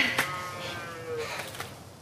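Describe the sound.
Cow mooing during a troubled calving, a first-time mother with a large calf, heard as faint drawn-out lowing tones over a quiet background.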